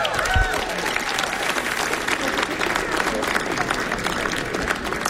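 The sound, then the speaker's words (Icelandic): Applause from a crowd for a jazz musician at a concert: thick, even clapping that holds at a steady level for about five seconds, with a brief low thump near the start. “Gefum hann okkar klapp”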